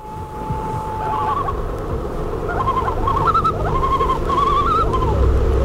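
Calls of a diving, swimming and fishing waterbird: a long steady tonal note, then several wavering, warbling phrases that rise and dip, sounding over a constant low rumbling hum.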